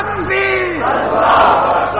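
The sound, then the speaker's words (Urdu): Political slogan chanted at a rally: a single voice calls out briefly, then a loud massed roar of the crowd answers and holds to the end. “نعرہ”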